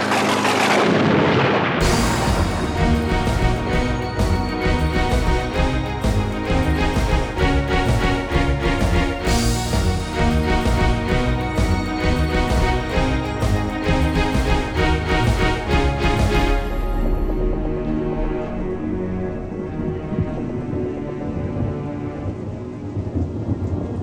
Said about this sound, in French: Air se plaqua au sol juste avant que les tirs ne débutent.